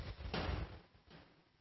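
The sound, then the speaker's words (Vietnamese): Knocking from people upstairs gives a heavy, dull thump followed by a fainter second knock, low and muffled, with no talk. “Bảo các vị trên kia đừng có gõ cái đấy.”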